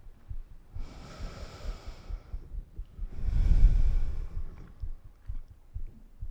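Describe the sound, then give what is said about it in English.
Deep breathing: two long, slow breaths, each a soft, airy rush lasting over a second, with no voices and only a low background rumble underneath. “I'm going to pause now and just breathe. I hope you'll breathe with me.”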